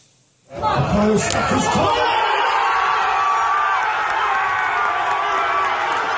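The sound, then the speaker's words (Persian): A football crowd roars at Arsenal's last home match of a title-winning Premier League season, the noise swelling in sharply after a brief quiet moment and then holding as a loud, sustained wall of cheering and voices. “گزارشی می‌بینید از آیدین مقیمی از آخرین بازی خانگی آرسنال.”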